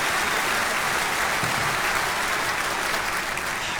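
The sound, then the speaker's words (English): An audience applauds a singer with dense, steady clapping that stays loud and even throughout, a continuous wash of many hands. “Wow. Amazing. Vanessa Haynes, give it up again for her. Incredible.”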